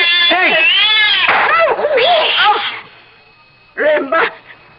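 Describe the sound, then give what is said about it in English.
An angry cat snarls and yowls in a loud, wavering, drawn-out cry, followed after a short pause by a briefer harsh burst. “Keep that cat away from us.”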